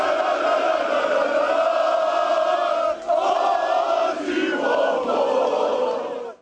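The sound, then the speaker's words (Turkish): Galatasaray fans chant loudly together after a win, lighting flares as they celebrate. The massed voices hold a sustained chant, break off briefly at about three seconds, then carry on before fading out at the end. “Meşaleler yakıp tezahüratlar yapan taraftarlar oyunculara ve teknik heyete sevgi gösterisinde bulundu.”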